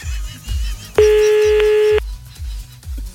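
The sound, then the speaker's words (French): A telephone tone sounds as a call is placed: one steady, clear tone of about a second, over a regular low thumping beat. “Allez hop, on rappelle Albert.”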